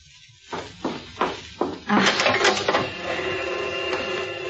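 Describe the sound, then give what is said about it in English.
Four sharp mechanical clicks from a tape machine being switched on to play a cassette, followed by a steady whirring hiss as the tape runs. “I've got copies of everything he's dictated, but there's a tape on the machine right now. I got it 3 weeks ago. I was listening to it again. You'd better hear it.”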